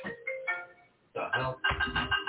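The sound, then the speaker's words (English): A mobile phone ringtone plays a bright electronic melody of stepped tones. It breaks off briefly, then returns fuller and more insistent. “You didn't mute your phone, sir.”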